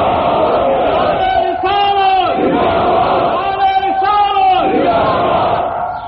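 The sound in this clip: A crowd at a religious sermon gathering answers the takbeer call by chanting Allahu Akbar in unison, with two loud, drawn-out group shouts.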